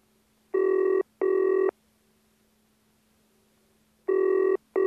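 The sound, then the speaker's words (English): A telephone rings on a company's office extension in a loud, buzzing double pattern: two rings close together, a pause, then another ring and the start of a fourth, steady and alone. “Extension 319. The phone's ringing.”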